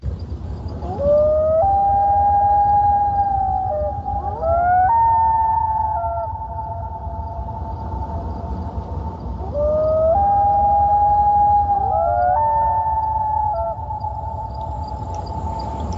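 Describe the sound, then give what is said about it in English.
A loon gives two long, clear wailing calls, each stepping up in pitch and then holding a pure, harmonic tone. The calls rise above a low, steady background hiss, with no talk. “Here we have one of my favorite sounds, which is the loon. The loon is so amazing.”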